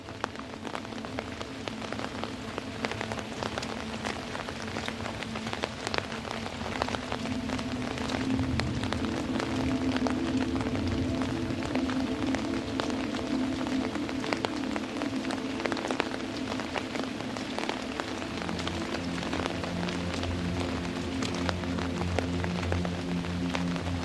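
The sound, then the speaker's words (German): Steady rain patters on a large leaf stirred by an evening wind, a dense, even wash of drops that runs unbroken throughout with no voices. “Das große Blatt über dir wiegt sich sanft im Abendwind. Und der leuchtende Regen spielt seine gleichmäßige Melodie darauf.”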